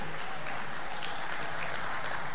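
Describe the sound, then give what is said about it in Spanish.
A church audience applauds during a worship service. The clapping is dense, steady and fairly faint throughout. “Alguien le da palmas hoy este día.”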